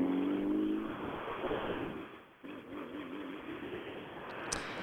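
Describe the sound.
A rally car drives past on a rally stage, its engine roaring loudly and steadily, with a brief dip in the noise midway before the engine sound returns.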